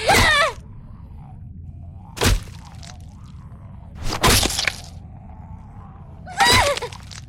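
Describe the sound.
Baseball bat smashing into a creature's face in a video game: two heavy, cracking blows land in the middle, framed by snarling, groaning vocal cries at the start and end.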